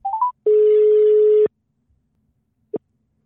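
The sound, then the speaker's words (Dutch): A phone call being placed: three quick beeps stepping up in pitch, then one long steady ringing tone, a pause of silence, and a single short beep at the end. “laten we hem inbellen. Gaan we doen. Ik ga Ensis inbellen.”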